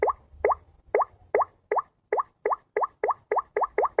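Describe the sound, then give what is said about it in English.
Bubble touch tone of a Samsung Galaxy S5 phone, repeated many times: short, soft plops with a quick upward pitch sweep, tapped at a quickening pace. “So I'm going to show how a Galaxy S5 sounds like. So the older tone is like this, like bubble sound.”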